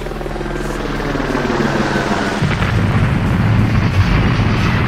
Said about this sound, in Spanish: he puesto el sonido del helicóptero de Rajoy Esperanza Aguirre